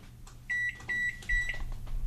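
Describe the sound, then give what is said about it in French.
An Amazon Basics microwave oven beeps three times while being connected to Wi-Fi, its display showing 00. The short, evenly spaced electronic tones are clear, high and steady, with no talk. “Le micro-ondes émet un bip et l'écran affiche 00.”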